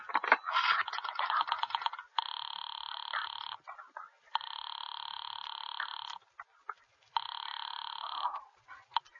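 A telephone rings in three long electronic bursts with short pauses between them, after an opening stretch of rattling, clicking clatter.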